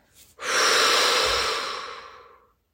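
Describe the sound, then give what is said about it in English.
A deep breath during a guided breathing exercise with a ball, heard as a single long airy rush of air that swells quickly, holds steady, then fades away over about two seconds, with no talk. “Take a big inhaling breath while lifting the ball high above your head. On the exhale, very slowly push the ball back down to your waist”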